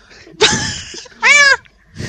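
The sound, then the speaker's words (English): A cat meows twice, loud and drawn out, with a short pause between, then gives a fainter, briefer sound. “The cat's in the oven.”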